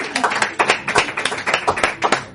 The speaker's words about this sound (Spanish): ¡Un aplauso! ¡Qué maravilla!